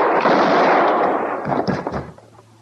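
Loud gunfire from a western radio drama's standoff with a marshal: a heavy, roaring blast followed by a few sharper cracks before the sound drops away into a low rumble.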